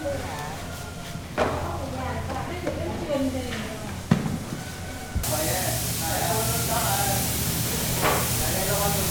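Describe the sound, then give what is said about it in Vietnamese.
Paint being sprayed evenly onto handicraft products: a steady, loud hiss that starts partway through and runs to the end, under continuous talking. “Những sản phẩm lại tiếp tục được chuyển đến tay các nghệ nhân trang trí thêm đủ kiểu hoa văn, họa tiết, rồi phun sơn thật đều lên sản phẩm.”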